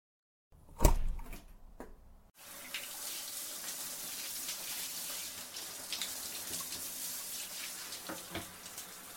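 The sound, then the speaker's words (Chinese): Shower water runs in a steady, faint, even hiss after a few soft knocks and clatters at the start, continuing without a break to the end. “你让我先去洗澡。”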